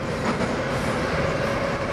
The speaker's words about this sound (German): Die Metro, pünktlich im 8-Minuten-Takt, die uns zu Anvere und Viktor bringen soll, befördert heute nur wenige Passagiere.